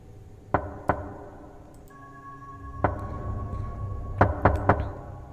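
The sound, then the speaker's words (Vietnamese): Knocking on a gate at night: six sharp raps in uneven bursts, two close together, then a lone one, then three in quick succession, standing out clearly against a quiet background. “Thế nhưng bây giờ là ban đêm, tiếng gõ cửa đơn nhưng rõ lắm.”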